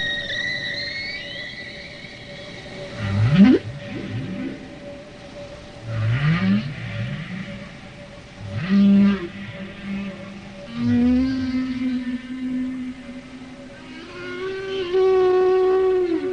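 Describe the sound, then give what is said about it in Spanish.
Whale song: long, moaning tonal calls and upward-sweeping cries, with several drawn-out phrases and sustained mournful tones rising and falling in pitch, heard alone without any talk. “canciones de las ballenas sí, están compuestas de temas menores combinados y la canción en total viene a durar una media hora.”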